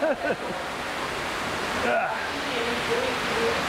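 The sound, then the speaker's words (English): Rushing water roars steadily throughout a boat ride through a simulated ice tunnel. Voices call out briefly over the constant wash. “Also, you have four childish radio DJs busy trying not to knock their heads on the sides of of simulated ice. This is what that sounds like. Are we gonna get wet?”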